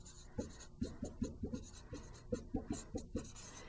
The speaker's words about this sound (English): And let me see if I can find a place to write that on this board.